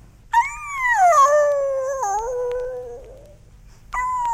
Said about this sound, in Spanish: Las 10, las 11, medianoche. Persistían los aullidos lastimeros.